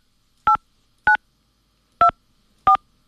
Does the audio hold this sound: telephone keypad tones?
yes